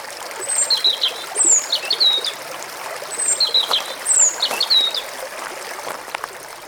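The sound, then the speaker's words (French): River water flowing steadily at a former ford now crossed by a bridge, a soft constant rush beneath clear, repeated bird-song phrases that come in two bursts over it. “Et là, on est sur la rivière D, au niveau de Sarra, en aval de ce qui était autrefois un gué, qui est devenu un pont.”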